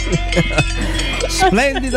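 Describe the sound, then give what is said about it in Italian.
Bells clank from a flock of sheep walking past during a transhumance, a busy jangle of overlapping metallic knocks with voices talking over them. “Sì, però sono le pecore che mi stanno camminando. Aspetta, ci dobbiamo allontanare. Non riesco a camminare.”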